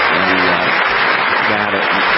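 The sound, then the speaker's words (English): Dense, sustained applause from a standing audience fills the whole stretch at an even, loud level, with voices faintly mixed into the clapping. “A lot of clapping. Oh, my gosh. Oh, too much. They're standing up all the time.”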